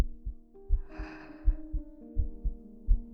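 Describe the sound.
A heartbeat sound effect pulses in steady low double thumps, several beats in a row, under soft sustained humming tones with a brief breathy hiss near the start.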